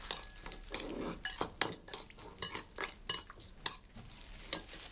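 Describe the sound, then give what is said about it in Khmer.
A spoon stirs a sweet-sour mixture, giving many light, irregular clinks and scrapes in a quiet, uneven rhythm with no voices. “យើងត្រូវដាក់ប្រហែលជា1ស្លាបព្រាបាយនឹងហើយយើងកូរវា”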